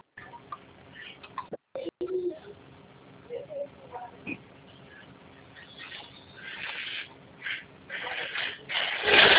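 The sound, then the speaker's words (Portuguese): A telephone line while a call is being transferred: narrow, tinny line noise with a brief cutout, scattered clicks and short tones, and rustling noise that grows louder toward the end. “peço que aguarde em linha que eu vou transferir o contato para o controle de qualidade”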